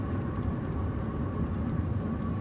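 Interior car driving noise, a constant low engine and road rumble with a faint steady hum, and no one speaking.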